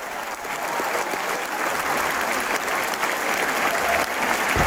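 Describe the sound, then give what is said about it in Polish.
Sustained applause from a concert audience after a performance, with the crowd on its feet in a standing ovation; dense, steady clapping that holds loud and even throughout, without speech. “I oczywiście owacje na stojąco. Fantastyczna przygoda, przepiękne wykonanie.”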